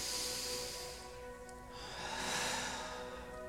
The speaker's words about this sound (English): we just need a deep breath. So breathe in through your nose and out through your mouth.